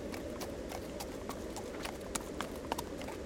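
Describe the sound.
Horse hooves walk through snow on a night ride in Colorado's Collegiate Peaks. The soft, faint, irregular steps crunch over a steady low background hiss, with a few slightly louder footfalls toward the end.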